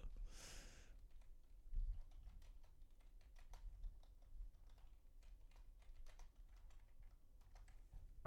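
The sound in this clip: Faint typing on a computer keyboard: many soft, irregular clicks keep coming throughout, quiet and with no talk over them.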